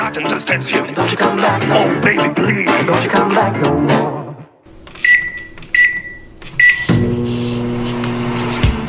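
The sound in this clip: A microwave oven set to pop popcorn gives three short, high beeps and then runs with a steady, low electrical hum.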